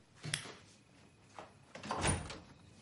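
A bedroom door closes as a woman shuts herself in. A few faint knocks and a soft rub lead to a fuller, slightly louder thud, all quiet with no voices.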